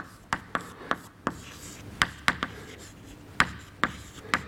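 Writing on a board during a lecture on wave stability: a series of crisp, dry taps and short scratchy strokes at an uneven pace, fairly quiet, with no talk.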